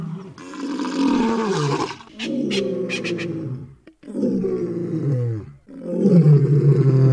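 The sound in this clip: A lion roars in four long, deep, rumbling bursts separated by short pauses, each strong and sustained, with no voices present.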